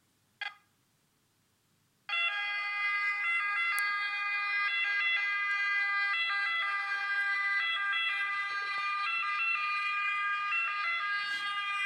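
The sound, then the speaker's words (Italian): An ambulance siren wails loud and steady for about ten seconds, switching between stepped tones in a repeating pattern after a brief click near the start. “Tipico esempio di questo effetto è il suono dell'ambulanza.”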